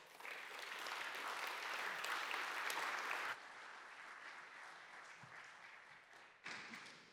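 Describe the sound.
An audience applauds to welcome two speakers at a church gathering: loud, dense clapping for about three seconds, then a softer, thinner patter that fades, followed by a brief final surge of claps near the end.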